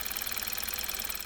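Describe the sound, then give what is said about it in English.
A normal Kia Optima car engine runs with a steady, even mid-pitched hum and a faint regular pulsing throughout, fairly quiet, with no voices. “This is the sound of a normal Kia Optima.”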